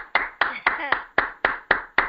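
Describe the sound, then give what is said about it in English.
Eight sharp hand claps, evenly spaced in a steady rhythm, each crisp and distinct with brief silence between them. “That was the sound of clapping.”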